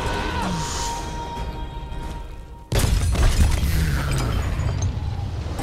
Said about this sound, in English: And then throw it like a bomb and blow that those gears up.